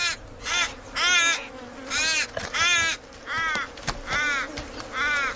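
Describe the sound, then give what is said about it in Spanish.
Crows caw in Australia as they compete with eagles over carrion: many harsh, repeated calls in quick bursts, loud and rasping, with brief gaps between them. “En Australia no hay buitres, de modo que cuervos y águilas audaces compiten por el trabajo de limpieza.”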